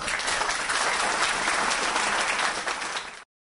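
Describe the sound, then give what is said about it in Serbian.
Steady applause follows an award acceptance speech at an exhibition award ceremony: a dense, even roar of clapping that holds for about three seconds and then cuts off abruptly. “Aplauz je trajao mnogo, mnogo duže nego mi smo ga skratili, bio je jači.”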